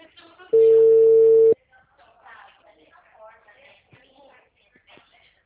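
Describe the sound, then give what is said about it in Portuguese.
Ringback tone of an unanswered phone call to a clinic: one steady, buzzing tone lasting about a second, followed by a stretch of people talking, then the next tone just starting at the end. “Tentando ligar lá na clínica para marcar meu exame, ninguém atende.”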